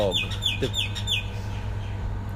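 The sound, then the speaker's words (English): A bird squawks in a quick run of sharp, high, downward-sliding calls that then stop, leaving a steady low hum underneath. “Fuck off, bird. Every fucking time.”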